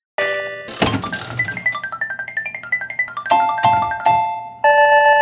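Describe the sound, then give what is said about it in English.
A prize wheel spinning in a game segment: a fast run of ticking notes stepping upward in pitch, then three bright chimes and a final held ding. “I'm going to spin that wheel.”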